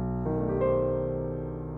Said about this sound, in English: we are going to be looking at the B dominant fully altered sound. Flat 9, sharp 9, flat 5, sharp 5. So it sounds like this.